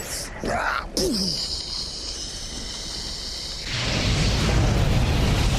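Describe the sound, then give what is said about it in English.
A flamethrower-like movie effect of Ghost Rider peeing fire opens with a swooshing burst, then settles into a dense, roaring rush that grows louder and fuller in its second half. “And that's him peeing fire.”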